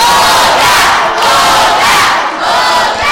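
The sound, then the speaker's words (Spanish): A concert audience chants together in loud, rhythmic unison, demanding another song. The shouted chant swells and dips in regular repeated waves. “otra, otra, otra. El público lo pide. Cuando el público pide una canción, no podemos hacer nada más.”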